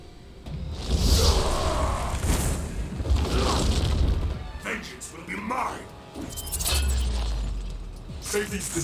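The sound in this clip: Mortal Kombat fight effects with Scorpion in play: shattering hits, deep booms and swishing strikes pile up in a dense, loud, continuous flurry, with voices over the action.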